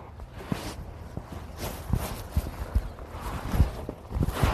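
Horse hooves clip-clop at a walk after a day of ranch riding, a loose, uneven series of soft thuds and knocks that comes steadily over low background noise.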